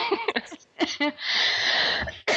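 Coughing and throat clearing from a person whose throat has gone dry after running out of soda: a few short rough bursts, then a longer raspy, noisy clearing, ending with another sharp burst.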